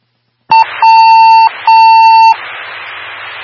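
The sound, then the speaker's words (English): Fire department dispatch alert tones: three steady electronic beeps at one unchanging pitch, a short one followed by two longer ones, then a soft radio hiss. “So Station 3, Station 1, second set of tones.”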